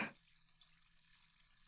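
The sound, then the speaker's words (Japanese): Hot bath water stirred by hand, fizzing as a soft, steady hiss that follows a brief louder burst at the start. It stays faint and even throughout, with no voices. “お湯を手で混ぜるとシュワシュワーってして気持ちいいですよね”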